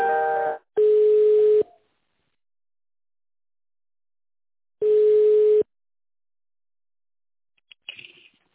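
Steady telephone ringback tones sound while a call is transferred: a few long, even beeps separated by a stretch of silence, followed by faint line noise at the end.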